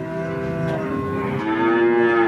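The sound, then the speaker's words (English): Calves mooing inside a round barn in Vermont, housing 78 of them. Overlapping low, drawn-out moos blend into a continuous bovine chorus that grows slightly louder toward the end. “The Robillards still use the round barn for their calves. Currently, 78 are housed there.”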